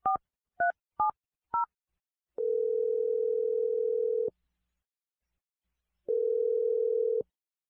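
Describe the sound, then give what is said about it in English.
Four short touch-tone dialing beeps on a telephone line, followed by two long, steady ringback tones with silence between them. The first tone lasts about two seconds and the second is shorter. No one speaks. “So I'm going to dial her number right now.”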